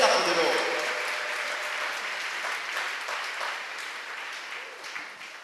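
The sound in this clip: An audience applauds in acclamation of the Lord, a dense burst of clapping that is loudest at the start and gradually thins and fades over several seconds.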